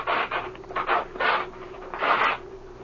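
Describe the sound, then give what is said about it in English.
Fabric covering is ripped off an aeroplane wing in a series of rasping, tearing pulls: several short bursts, then a longer final tear, with no talking. “The fabric's been split and then sewed up. That's strange. I'll rip this wing covering off and see why the patch was made.”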